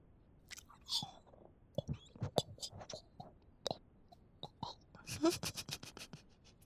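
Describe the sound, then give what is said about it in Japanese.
Someone eats takoyaki with close, quiet chewing and mouth sounds: many soft, moist bites and crunches in irregular bursts, with a denser flurry near the end. “じゃあ今のうちにいっぱい食べとこ。”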